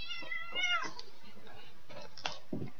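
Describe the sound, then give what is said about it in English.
A cat meows in one drawn-out, wavering call near the start, followed by softer, scattered noises and a brief low thump. “What was that sound, speaking of ghosts? That's the cat being obnoxious.”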